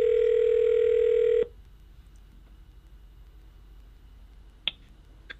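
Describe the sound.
A telephone dial tone while dialing out: a loud, steady tone holds for over a second and then cuts off abruptly, leaving a quiet line broken by a single sharp click.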